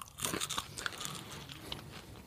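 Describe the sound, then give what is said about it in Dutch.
Biting and chewing tough wings, a dense stream of crunches and crackles with sharper bites near the start, steady and quiet, with no talk. “Ik vind die vleugels een beetje taai. Een beetje op een gegeven moment ga je lang kouwen”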